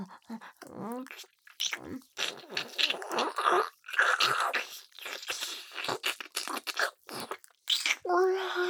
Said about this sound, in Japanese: もう、舐めますよ。